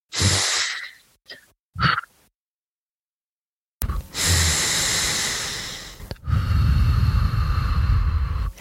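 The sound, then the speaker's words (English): Breathing in through the nose and out through the mouth during a calming breathing exercise: a few short airy breaths, a pause of silence, then two long, loud, rushing breaths in turn, with no speech. “one that we could try right now just to see how it feels in the body is something called the halo active, which is in through the nose and out through the mouth”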